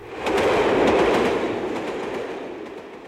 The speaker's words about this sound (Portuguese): quando por entre os bosques surgiu uma outra locomotiva puxando apenas um vagão